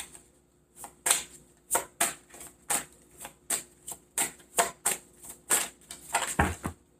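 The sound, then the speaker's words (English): A tarot deck being shuffled as cards fall out, heard as many rhythmic papery slaps at a steady pace. The slaps bunch into a quicker flurry at the end. “And all of these cards just fell out, and that is way too many to take, but I know it happened for a reason.”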